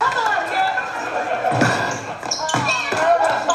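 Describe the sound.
A basketball bouncing on a schoolyard court gives a few low, dull thuds beneath loud, overlapping voices and shouting.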